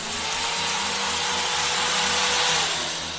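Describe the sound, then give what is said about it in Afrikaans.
An electric drill runs steadily throughout, a harsh, dense whirring with a faint low pulsing beneath it, loud and alone with no talk. “dan boor ek jou verstand tanden uit. Met hierdie boor.”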